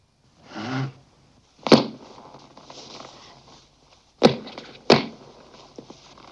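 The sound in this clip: A person walks with a few slow, unevenly spaced footsteps. Each step lands as a sharp thud, with quiet pauses between them.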